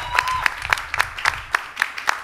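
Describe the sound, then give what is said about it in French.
An audience claps for the band Antidote at a live show, striking a steady, evenly spaced unison beat of sharp claps over a low crowd murmur. “Et c'est le groupe Antidote. Du bruit pour Antidote, s'il vous plaît.”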